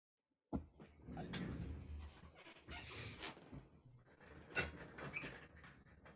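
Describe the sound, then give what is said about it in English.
Faint squeaking and creaking of a chair from the Harvard Library, a quiet, irregular run of rubbing, scraping creaks that starts suddenly after a moment of silence and keeps going in uneven bursts. “I thought you got rid of that squeaking chair.”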